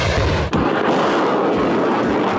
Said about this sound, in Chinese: 视频中陆军装备的各型坦克、火炮不断开火